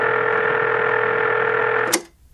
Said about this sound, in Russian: Связь с абонентом потеряна. Еще раз соединяю.